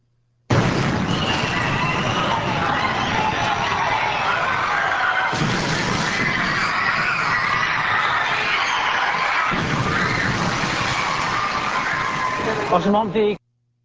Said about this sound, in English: That is an actual on-site recording, so to speak, of the bombings in Madrid. Yes, that's right, in Madrid. It's from the security camera.